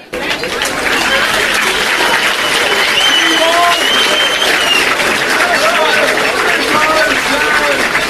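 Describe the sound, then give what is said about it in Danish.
Sustained audience applause after a speech at a rally for free education: dense, steady clapping at an even loudness, with a few cheering voices rising above it throughout. “Efter applaus til Toke Nielsens tale”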